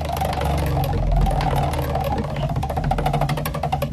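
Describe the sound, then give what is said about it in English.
A prize wheel spins with rapid, evenly spaced clicking ticks over a low steady hum, holding a fairly loud, regular rhythm throughout. “And let's spin the wheel of poms here.”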